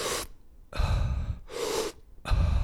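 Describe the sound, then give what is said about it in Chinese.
Deep, forceful Wim Hof method breathing: four loud, airy breaths in quick succession, with short pauses between them, and no talking. “不管是用鼻子吸或者是嘴巴吸，尽量把气塞在你的身体里面，吸三十气三三十次。可是不要吐气，吐气可能就只是放气而已。所以它是这样。”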